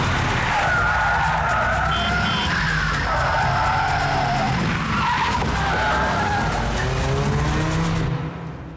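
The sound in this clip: A car driving off fast with skidding, squealing tires: a loud, continuous engine roar with wavering screeches layered on top for about eight seconds, trailing off at the very end.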